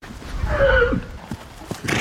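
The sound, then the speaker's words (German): A foal neighs on a paddock: one high whinny that dips in pitch, set against a steady noisy background and followed by a few faint soft knocks. “Sogar auf Jessica von Bredow-Werndls Koppel in Aubenhausen bei Rosenheim sind die Fohlen im WM-Fieber. Der große Gummiball ist das beliebteste Spielgerät für den Pferdenachwuchs.”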